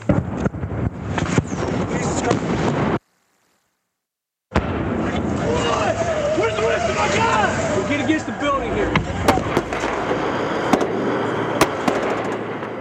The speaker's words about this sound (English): This is the sound of an RPG whizzing overhead before the tape goes blank as this reporter dives behind a Humvee.